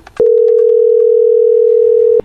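A telephone dial tone before a call: one loud, steady, unbroken tone lasting about two seconds, framed by a click at its start and another as it cuts off.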